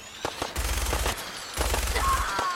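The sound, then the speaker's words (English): Rapid automatic gunfire in a shooter video game, fired by a player in power armor, comes in two sustained bursts of fast, heavy repeated shots with a deep thumping low end. “Just a few shots and everyone's dead.”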